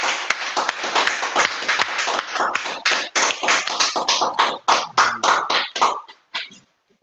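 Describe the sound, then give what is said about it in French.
An audience claps in praise of the Lord during a Christian service. Loud, dense applause breaks into distinct sharp claps, then trails off into a few final scattered claps before silence. “Et nous acclamons le Seigneur.”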